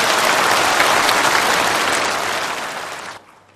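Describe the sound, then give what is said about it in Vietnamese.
Applause from a large audience in a Buddhist temple lecture hall: dense, steady clapping that gradually thins and then stops abruptly near the end. “Xin quý vị hãy dành những tràng pháo tay thật lớn để chào mừng.”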